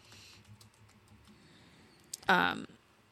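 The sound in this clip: Typing a search on a computer keyboard: a run of light, quiet keystrokes, then a louder, noisier burst of key presses near the end.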